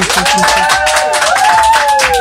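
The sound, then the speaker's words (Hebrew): A group of women clapping their hands at a quiz show, steady, dense applause with voices ringing out over it. “שימו, שימו עוד כפיים, בנות.”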